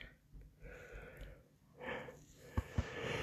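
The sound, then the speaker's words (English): A person yawning late at night: long, breathy, drawn-out exhales, faint and wordless, followed near the end by two brief sharp clicks. “Sorry. Sorry about the yawning.”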